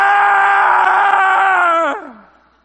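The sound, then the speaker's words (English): A man's loud, drawn-out scream, voiced as an imitation of a man possessed by an evil spirit, held steady for about two seconds before sliding down in pitch and fading out. “a man possessed of an evil spirit began to scream out, ah!”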